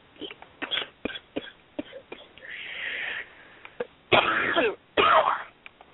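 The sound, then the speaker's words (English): Throat clearing and coughing from one person: a scatter of small throat clicks and rasps, a longer clearing sound in the middle, then two loud, harsh coughing bursts close together near the end. “Excuse me. Oh, I had to cough up a lung.”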